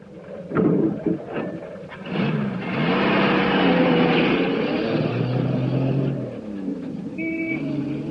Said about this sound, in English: A beat-up pickup truck pulls to a stop beside him.